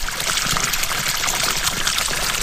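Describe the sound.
Water from a deep well on a small horticultural farm pours and rushes steadily, a constant broad hiss without pauses or voices.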